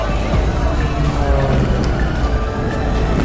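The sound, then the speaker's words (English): A dense travel soundscape of traffic and engines holds a steady, loud roar of engine and road rumble. Indistinct voices are blended in throughout, with no breaks. “It's the sound of boarding calls and jet engines, blaring car radios, and the hum of endless highways.”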